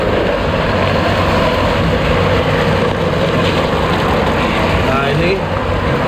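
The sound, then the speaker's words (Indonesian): Steady, loud droning of a soybean grinding machine running as soybeans are fed in to be milled, a dense, continuous mechanical roar that holds an even level throughout. “Jadi dari kedelai seperti ini, ya, masuk ke mesin giling ini ya?”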